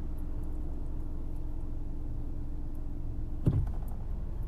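A car is driving, with a steady low engine and road rumble throughout. A single brief thump sounds near the end, and no one speaks.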